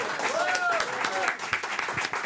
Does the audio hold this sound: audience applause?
yes